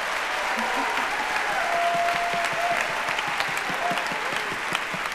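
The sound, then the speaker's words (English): Audience applause at a live show, a dense, steady wash of clapping that holds at a fairly even level throughout, with some voices mixed into the crowd. “So give it up for Radiolab producer Molly Webster.”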